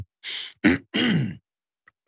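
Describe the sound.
A person clearing their throat out of habit, a habit harmful to the throat: three harsh, rasping bursts separated by short gaps, with another starting at the end.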